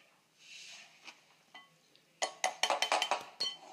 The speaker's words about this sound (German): Ihr hört jetzt gerade nur die Schüssel. Also, wir sind jetzt dann gleich fertig mit dem Butterschneiden.